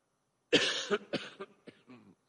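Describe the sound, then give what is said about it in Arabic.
A man with a slight cold coughs: one strong, harsh cough, then several weaker, shorter coughs trailing off, with no speech around them. “متأسف على الكحة دهيت”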